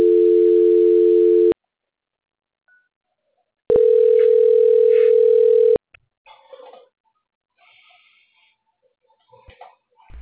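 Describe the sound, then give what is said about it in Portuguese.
A telephone line tone sounds while a call is put on hold and transferred. Two long, steady tones are separated by silence, and faint scattered clicks and noises follow. “Dona Kelly, vou pedir a senhora para aguardar em linha, que eu vou transferir a ligação para o setor de qualidade, que vai dar continuidade à nossa contratação, tá bom? Ok. Transferência.”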